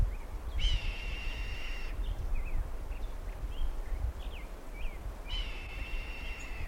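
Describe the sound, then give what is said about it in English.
Nasal, mewing calls of a red-breasted sapsucker among Douglas fir, sugar pine, ponderosa pine and black oak: two drawn-out wavering calls at the start and end, with a few faint short chirps between, over a steady low background hiss. “Red breasted sapsucker's back again.”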